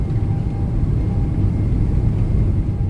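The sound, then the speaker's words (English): A spacecraft's engines throttle up during launch, a loud, steady, dense rumble that holds at a constant level throughout, with a thin faint tone running through it. “Roger, Mercury. You are go for throttle up. Go for throttle up. Hold on to whatever you got back there.”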